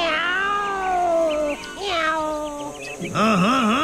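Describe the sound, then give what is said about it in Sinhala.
A cat meows several times in a row, drawn-out and loud with gliding pitch, ending in a wavering, warbling caterwaul. “ඒ බාර විකාර පූසා ආයෙත් ඇවිල්ලා නේද?”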